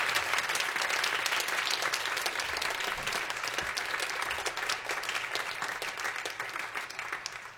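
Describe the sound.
An audience applauds steadily and fairly loudly for the full stretch, welcoming pianist and band leader Neil Cowley, whose piano trio blends rock and pop into jazz, onto the stage.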